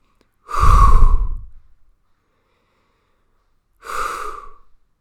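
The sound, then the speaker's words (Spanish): Deep breathing from one person: a long, loud, rushing breath, then after a quiet pause a shorter and softer second breath. No speech is heard. “Necesito respirar.”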